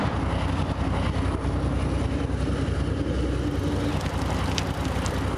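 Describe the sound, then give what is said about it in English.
A Union Pacific freight train rumbles past beside a river at evening, a loud, steady, dense roar of wheels and engine that holds level throughout, with a few faint high squeals near the end. “The Union Pacific chugs by.”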